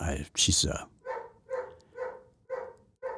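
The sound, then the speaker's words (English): Two pet dogs barking in the background at home: a loud burst at the start, then a steady run of evenly spaced, muffled barks. “you can hear him barking back there. See? Oh, now both of them are barking.”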